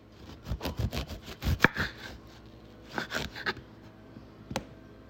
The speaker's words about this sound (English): So I'm gonna cut up my lime.